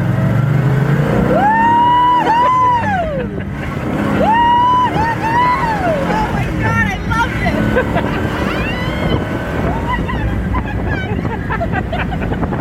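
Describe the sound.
Loud, hard acceleration from a car's engine with a tri-power setup of three two-barrel carburetors, rated at 360 horsepower; the revs climb and drop repeatedly as it shifts up through the gears.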